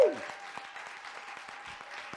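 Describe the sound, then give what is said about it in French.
Audience applause during a church service acclaiming the Lord, a short, dense patter of clapping that starts strongly and settles into a steady, moderate level. “Est-ce qu'on peut acclamer le Seigneur ce soir?”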